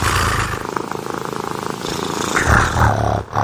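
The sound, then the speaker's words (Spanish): A person imitates a cat's purr with a steady, rolling low rumble. It stays loud and continuous for about three seconds, then dips briefly near the end. “¿Sabes ronronear? ¿No sabes?”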